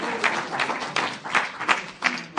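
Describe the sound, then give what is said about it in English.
A church audience applauds during a worship service. Moderate clapping rises and falls in repeated uneven swells. “Come on, let's applaud him.”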